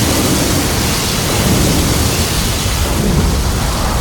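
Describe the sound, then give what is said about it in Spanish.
Thunder and wind roar from the storm wall in Gears of War 4, a dense, steady wash of loud rumbling noise that holds without a break for the whole stretch, with no voices over it. “¡El muro tormenta!”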